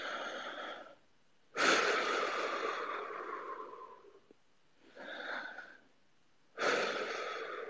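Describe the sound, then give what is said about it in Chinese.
Deep breathing from a person told to relax and breathe deeply during a procedure: slow, airy breaths alternating in and out, four separate breaths with pauses between them, soft and unhurried. “放轻松，跟我一起深呼吸。”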